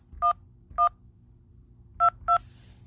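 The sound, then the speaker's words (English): Four telephone keypad tones dial an extension on an automated phone line: two evenly spaced beeps, a pause, then two quicker beeps, each short, clear and loud against a quiet background. “If you know your party's three-digit extension, please dial 2”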